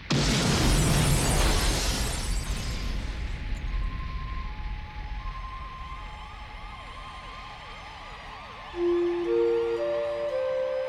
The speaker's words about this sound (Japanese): 爆発のタイミングは絶妙だな。